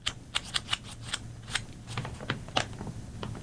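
Paper pages flip in a quick series of faint, crisp flicks and rustles as someone searches for a particular page. Many short papery bursts come at an uneven pace.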